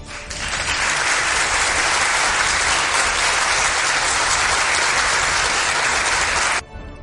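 Canned studio audience applause played as a sound effect: a dense, loud wash of clapping that holds steady for over six seconds, then cuts off abruptly.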